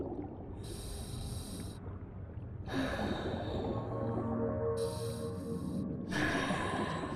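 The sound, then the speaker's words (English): A woman heavily sucks in breaths, a few loud, rasping inhales separated by short pauses, over a low steady background hum. “Her eyes open and close sluggishly as she sucks in breaths. With each inhale, her shoulders heave and her body lifts slightly.”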